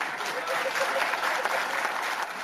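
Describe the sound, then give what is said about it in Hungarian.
Synod fathers applaud after a question from Pope Francis, a soft, dense, even patter of many hands clapping that carries on without a break. “Kérdezte Ferenc pápa, amire taps csattant a szinódusi atyák között.”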